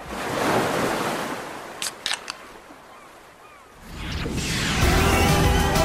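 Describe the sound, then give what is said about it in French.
Beach waves and surf: a wash of surf rushes and fades, a few brief sharp clicks pass, then another wave surges in loudly and keeps roaring. “on prend la direction de la plage. Un vendeur ambulant arrive.”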